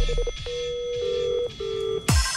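Telephone keypad tones sound as a number is dialed to place a call. A few steady electronic beeps of different pitches follow one another, and an abrupt louder burst of noise comes at the end.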